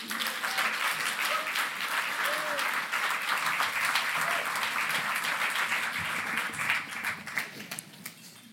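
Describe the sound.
An audience claps to welcome the speakers at an evening talk on politics and art. The applause is dense and steady throughout, then thins out near the end.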